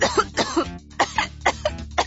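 A boy coughs in a rapid run of short, rough bursts, with a brief pause midway before several more harsh coughs follow.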